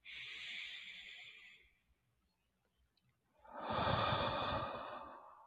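Slow, deep breathing during a guided meditation: two long, soft breaths separated by a few seconds of silence, the second fuller and rougher, with no talking.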